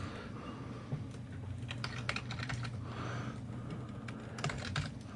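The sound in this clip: Typing on a computer keyboard: a faint, quick, irregular clatter of key presses over a steady background hum.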